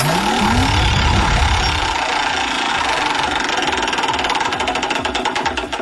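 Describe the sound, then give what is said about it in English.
Prize wheel spinning in a ticket-giveaway game: a dense, rapid rattle of clicker ticks runs throughout, becoming more distinct toward the end, with a loud rising whoosh at the start. “Spin that wheel.”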